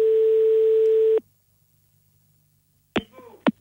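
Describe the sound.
A telephone line tone hums steadily and loudly for about a second as a call is cut off, then stops abruptly; after a pause of silence, two brief sharp noises follow.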